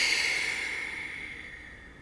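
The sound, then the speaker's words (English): A long, slow exhale during a guided breathing exercise: one steady, airy breath with no talk, fading gradually over about two seconds. “Exhale as long as you can without force.”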